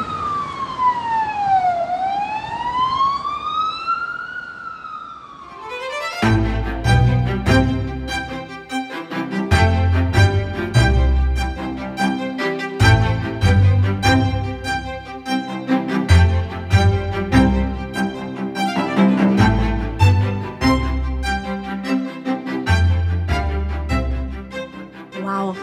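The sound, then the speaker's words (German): A police siren wails loudly, its pitch sweeping down and then back up over several seconds. It gives way to a busy, loud, rhythmic passage with repeated beats. “Oh, hört ihr das? Die Polizei ist endlich da.”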